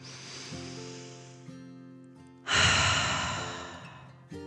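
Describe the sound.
A deep, calming breath in and out, done as a slow relaxation exercise: a long, soft inhale followed by a louder, rushing exhale that gradually fades, over faint sustained background music.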